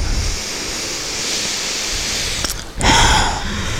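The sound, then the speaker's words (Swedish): A deep breath taken during a guided relaxation exercise: a steady, airy breathy hiss, a brief dip, then a stronger rushing breath that swells and fades, with no talking. “så, ta ett djupt andetag.”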